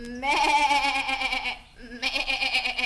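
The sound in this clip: A goat bleats twice. Each call is a long, quavering, nasal cry with a tremulous wobble, and the two are separated by a brief pause.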